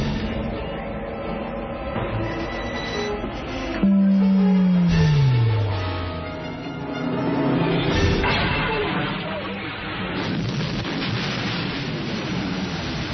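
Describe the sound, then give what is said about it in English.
The Death Star superlaser firing, a Star Wars film sound effect: a dense rumbling roar with tonal layers, a low tone sliding steadily downward in pitch midway before the roar swells again. “The coordinate tractor beam is pulling us in. You may fire when ready. Commence primary ignition.”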